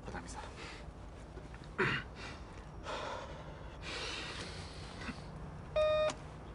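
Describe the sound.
A phone beeps as a call is placed: two short, bright electronic tones, one early and one near the end, over low background noise with soft breathy sounds.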